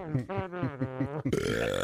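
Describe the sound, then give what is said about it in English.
A long, prolonged burp, loud and voiced, with a wavering, pulsing tone that stretches on before turning rougher and noisier toward the end. “can you do a long one or... Like prolonged burp?”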